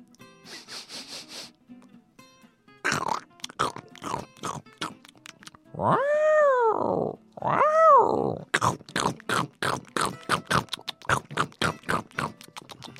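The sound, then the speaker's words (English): Crunchy chewing of a raw carrot: many rapid, sharp crunches in an uneven rhythm, preceded by a few drawn-out grunting vocal sounds and soft scattered clicks. “Here, let me give you some yummy carrot. Here you go.”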